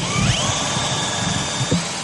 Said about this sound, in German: In 50 Metern Höhe wird gebohrt, gehämmert und geschnitten.